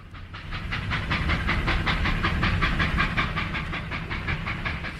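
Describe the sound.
Steam train sound effect: a fast, even rhythm of hissing chuffs rides over a low, rolling rail rumble, loud and continuous throughout.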